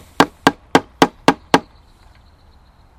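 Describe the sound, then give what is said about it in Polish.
Six sharp, evenly spaced taps around a hole, marking where holes will be drilled, followed by near quiet. “musimy zaznaczyć sobie, gdzie wiercić dziury i to bardzo prosto się robi, po prostu stukamy to dookoła.”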